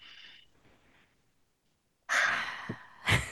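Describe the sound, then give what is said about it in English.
A deep breath: a faint airy breath, then a loud, long rush of breathing with a sharp, sniff-like burst near the end, heard alone. “take a deep breath”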